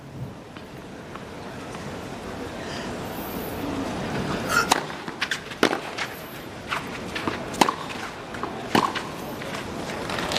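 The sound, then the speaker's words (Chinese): Tennis ball struck during a tournament match rally, an inside serve followed by a deep attacking forehand, giving several sharp, separate pops over a steady background hiss. “非常漂亮的内角发球啊，去结合一个落点很深的正拍进攻”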